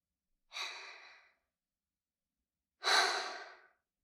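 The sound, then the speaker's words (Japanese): Two slow, deep breaths, one in and one out, each a soft airy rush that swells quickly and tapers, separated by a long silent pause. “私に合わせて3回深呼吸して。”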